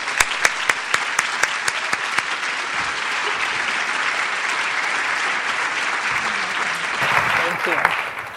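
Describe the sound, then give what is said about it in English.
An audience applauds as a speaker is welcomed onto the stage at an event. The dense, steady clapping lasts the whole stretch, with a few sharper single claps standing out at the start and a slight swell near the end. “So please put your hands together and welcome Lisa Skeet Tatum.”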